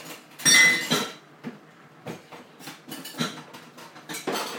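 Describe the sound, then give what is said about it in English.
Plates and other dishes clatter and clink as they are cleared out of a kitchen sink to make room for draining pasta. One louder burst of clattering comes early, followed by many softer knocks and clinks. “there's a few plates and stuff in the sink. I'm just going to clear them out of the way because I need to drain the pasta.”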